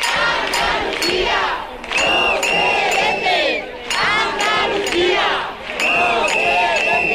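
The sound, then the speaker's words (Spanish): A crowd of about a thousand people on a street protest march for housing rights in Jerez, with many voices shouting and chanting together in a loud, dense roar that dips briefly a few times before swelling again. “Estos son algunos de los sonidos que ha dejado la manifestación convocada por el colectivo Jerez por la Vivienda.”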